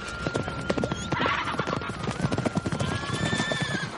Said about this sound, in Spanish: Acaricia un caballo.